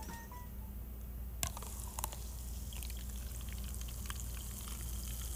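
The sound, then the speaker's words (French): Carbonated soft drink fizzing as it is poured into a glass, a faint, continuous crackling hiss dotted with many tiny pops and a couple of sharper clicks early on. “Fait que je vais en verser. OK, dans le micro magique, dans un verre.”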